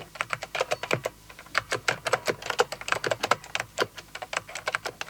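Rapid typing on a computer keyboard by an office screen worker, a dense, irregular patter of crisp key clicks with no voices.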